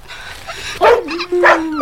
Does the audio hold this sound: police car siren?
no